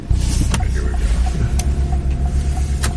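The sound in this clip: Car driving away from police headquarters, a loud, continuous low engine and road rumble with a few sharp knocks scattered through it and no talk.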